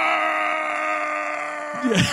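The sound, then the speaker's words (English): A voice imitates a man's pained scream: a long, strained groan held at a steady pitch that breaks off into a short wavering cry at the end. “He's got the most hilarious scream.”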